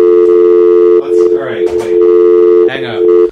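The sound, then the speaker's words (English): A steady telephone dial tone drones on without a break, loud and even, while people talk over it throughout. “Oh, we got a dial tone.”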